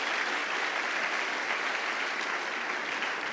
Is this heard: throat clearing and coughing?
no